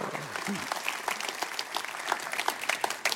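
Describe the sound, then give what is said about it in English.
Audience applause at a church welcoming a guest speaker, a steady, crackling patter of many hands clapping at a moderate level throughout. “Let's give him a hand.”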